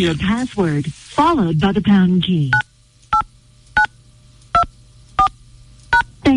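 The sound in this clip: Telephone dialing tones as a radio host calls a listener: a voice talks first, then a series of short, evenly spaced, clear beeps follows.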